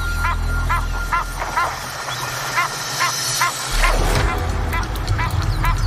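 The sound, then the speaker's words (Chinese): Pairs of Egyptian geese squabble at a waterhole: a rapid, rhythmic run of harsh, nasal honking calls gives way to a louder, rougher burst of clamour. “这里埃及雁众多，每对埃及雁夫妇都想占据水坑边最有利的位置，冲突难以避免。”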